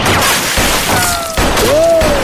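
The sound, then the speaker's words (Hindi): Gunfire from bandits in a shootout among rocks near a bridge, with a few loud, sharp cracks and bursts and long whining ricochets that sweep across the din. “डाकू लगातार गोलियां चला रहे हैं।”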